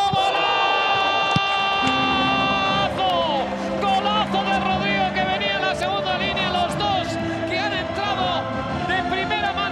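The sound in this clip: Stadium crowd roars during Real Madrid's comeback against Inter, a loud, continuous wall of cheering with an excited commentator shouting over it.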